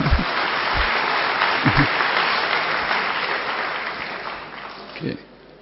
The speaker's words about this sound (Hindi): हाँ, ताली तो बजा दो।